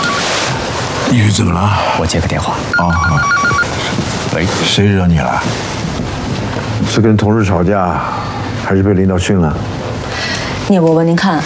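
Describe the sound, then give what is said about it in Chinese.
A telephone rings in repeated bell-like bursts, with people talking over and between the rings. “你怎么了？我接个电话。”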